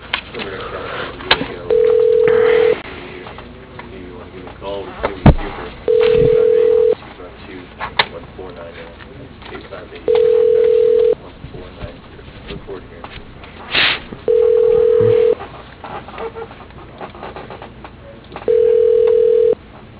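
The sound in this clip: Tones on an automated business phone line: five steady, mid-pitched beeps at regular intervals, with a recorded voice prompt speaking between them.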